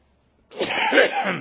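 A single explosive cough from a preacher during a church sermon, sharp and fairly loud, lasting about a second before stopping.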